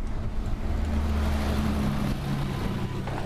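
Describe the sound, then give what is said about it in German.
A bus drives past on a street, giving a low, steady engine rumble with a humming tone that holds throughout at a moderate level, with no talk. “Ha, dafür fährt hier gerade ein Bus. Komisch, immer wenn ich hier bin, fährt hier ein Bus.”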